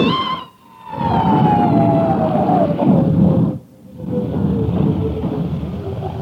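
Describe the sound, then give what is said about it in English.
An ambulance siren sounds as a long, loud wailing tone that slides slowly downward in pitch over a heavy rumble. It breaks off briefly twice. “Bill, look out for the ambulance! Move back, move back,”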